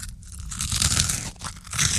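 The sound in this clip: Crunchy, cheesy snack being bitten and chewed, giving several sharp crackling crunches in quick bursts with brief softer gaps between them.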